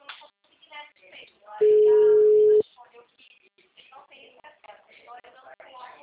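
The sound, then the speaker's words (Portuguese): A single steady mid-pitched phone tone, about one second long, sounds while a call is placed to a city hall office. Talk comes before and after it. “Vou ligar para essa prefeitura aqui.”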